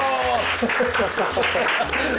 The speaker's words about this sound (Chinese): 就让我们用最热烈的掌声来欢迎今天为各位上菜的主厨